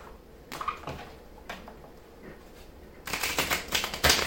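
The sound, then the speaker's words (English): A tarot card drawn from a second deck: a few soft papery slides and taps at first, then a busier flurry of crisp card clicks and rustles toward the end. “I'm going to take one more card from my other deck, and then we're going to wrap this on up.”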